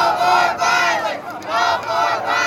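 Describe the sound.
Applause and crowd noise rise at the close of the 2018 Indiana legislative session. Dense, loud clapping swells and dips in waves, with no clear individual voices.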